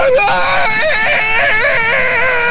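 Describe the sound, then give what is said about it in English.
A scream rings out as a high, wavering cry, rising and falling in several loud vocal bursts over a couple of seconds, with no other sound alongside. “That's a scream.”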